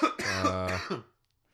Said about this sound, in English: You're going to have to take over with some news because I need to cough.